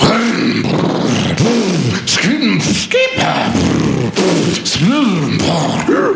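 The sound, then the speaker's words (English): A man's voice imitates a go-kart engine warming up, making loud sputtering bursts and several rising-and-falling revving sweeps. “I'm warming up my go-kart.”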